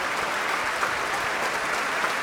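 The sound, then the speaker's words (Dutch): Thunderous applause fills the main hall of the Concertgebouw after a performance of Tchaikovsky's Violin Concerto. The clapping forms a dense, steady, loud wash with no talk. “een daverend applaus hier. In de grote zaal van het Concertgebouw.”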